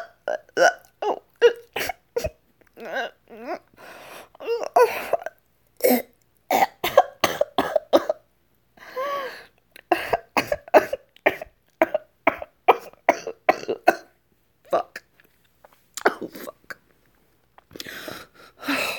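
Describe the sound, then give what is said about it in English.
A person coughing and choking, with many short, harsh bursts in rapid irregular clusters. Some catch like gagging or hiccup-like gulps, and no speech runs between them. “Shit, my throat. I am lucky that I can still talk. I was choking,”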